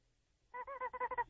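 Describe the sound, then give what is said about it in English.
Squawking from a rubber chicken toy: a quick run of several nasal, honking squeals that starts after a moment of quiet. The squawks are loud, buzzy and goose-like, with no talk over them. “he's got the stupid rubber chicken”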